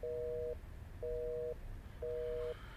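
A telephone busy signal sounds while a call is placed: three steady mid-pitched beeps, each about half a second long, separated by equal gaps, over a faint low rumble.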